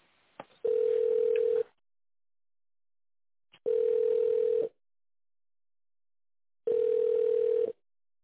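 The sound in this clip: A telephone ringback tone while a call is being transferred: three separate steady beeps of about one second each, even in pitch and separated by long silent gaps.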